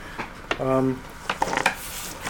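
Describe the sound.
Dice clatter on a table during a tabletop game: a short burst of hard clicks and small rattles, preceded by a brief steady hum, with no clear speech.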